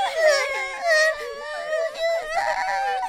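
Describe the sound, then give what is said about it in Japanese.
People crying and wailing, with high, wavering voices sobbing almost without pause at a moderate level. “泣かないでください。みんなの泣き顔見てると私悲しくなります。”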